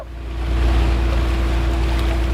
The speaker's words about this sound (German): ein kleines Schiff aus dem Bootshaus, steuert es über glasklares Wasser